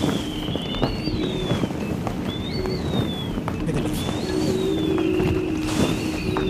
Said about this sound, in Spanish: el ulular del viento de las jarcias